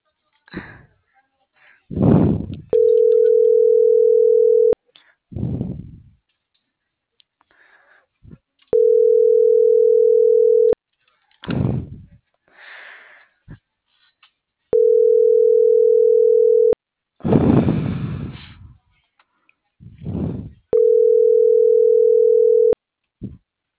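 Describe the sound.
Steady electronic telephone tones sound in four separate bursts of about two seconds each while a call is dialed, alternating with a person's voice and breathy sounds in the gaps.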